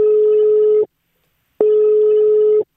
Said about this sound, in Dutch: we moeten hem gewoon nu gaan bellen.